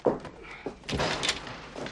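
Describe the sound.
A car door is shut with a short, dull thump, followed by low, muffled movement noise. The sound is fairly faint overall.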